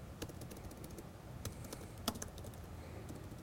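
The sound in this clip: Soft typing on a computer keyboard, with scattered, fairly faint keystrokes and a few sharper clicks standing out among them.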